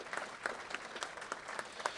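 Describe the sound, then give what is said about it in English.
Applause from an audience sounds as a faint patter of scattered, distinct hand claps, irregular but continuous throughout, with no speech. “So could you please give him a big round of applause?”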